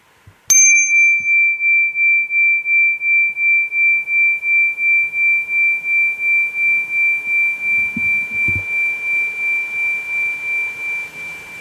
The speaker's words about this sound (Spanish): El del gong, pero hacelo bien al lado del micrófono ese.